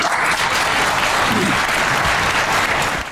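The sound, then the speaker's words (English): Audience applause at a Republican debate: dense, steady clapping from a crowd, loud and unbroken for about three seconds with no voices over it. “So the audience is applauding, and they're giving me permission to keep going.”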